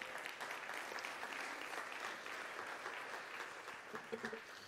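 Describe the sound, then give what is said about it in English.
Faint audience applause in a church service as four young people are welcomed onto the stage, a soft, continuous patter of clapping with a few slightly louder bursts toward the end. “Can we give it up for them as they come?”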